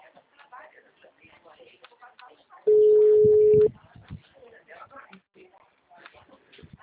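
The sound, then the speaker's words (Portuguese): A telephone rings on an outgoing call: one steady tone about a second long, clearly louder than the quiet talk around it. “Estou ligando.”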